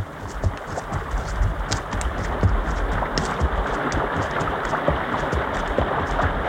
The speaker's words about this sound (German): Und was rauscht hier so, Mr. Shatterhand? Ist schon der Fluss. Swallow River.